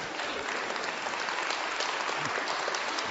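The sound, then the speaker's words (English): A studio audience claps loudly and steadily to welcome a guest onto the stage, a dense, even wash of applause with no voices over it. “All right, can we give a warm horizon welcome to Kimberly Miller? Kimberly, come on down.”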